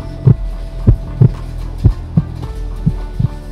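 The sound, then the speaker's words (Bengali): A heartbeat sound effect of low, heavy thumps in lub-dub pairs repeats at a steady pace over a faint low hum, with nothing else heard. “Ring হয়েই চলেছে আর প্রত্যেক রিঙে যেন শঙ্করবাবুর হার্টবিটটা বেড়ে চলেছে”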